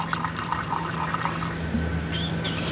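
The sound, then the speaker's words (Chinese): Clear milk liquor distillate trickles from a distillation barrel down a slanted baffle and thin hemp cord, dripping into a collecting container in a steady, continuous watery patter with no voices. “滴落到外面承接的容器里。这种清澈透明的液体就是奶酒。”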